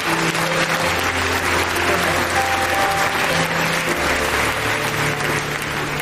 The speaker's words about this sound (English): Would you give a hand to these wonderful families that dedicated these babies?